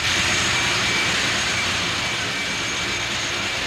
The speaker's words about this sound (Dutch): Ik sta nu in de zenderkamer van het schip Mi Amigo. En we werken nu nog op volle kracht. Een heleboel lawaai komt af van onze 50 kilowatt zender en van de 10 kilowatt zender van Radio Caroline.